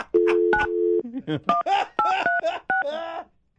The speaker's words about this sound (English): I may have dialed it wrong.